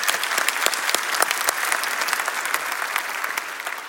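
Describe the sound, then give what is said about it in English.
A church audience applauds during a service at Rock Church in San Diego. Many hands clap in a dense, even wash, with sharper individual claps standing out throughout. “Let's give them a big hand out there.”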